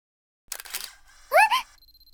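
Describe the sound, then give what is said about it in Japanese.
A camera shutter clicks as a photo is taken, giving a quick burst of sharp mechanical clicks, followed by a brief vocal sound. “ちょっと先輩、いきなり撮るのはマナー的にどうなんですか？いくら私が魅力的だからって、思わずシャッター切っちゃった？”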